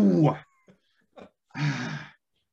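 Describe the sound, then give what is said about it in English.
A dog whines in drawn-out, moaning cries, two longer wails separated by a couple of brief faint yelps. “Oh, geez, there goes the dog.”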